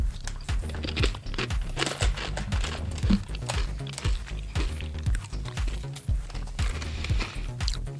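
Biting and chewing a nacho cheese corn chip gives many crisp, dry crunches in an irregular rhythm, fairly close and clear with no talk.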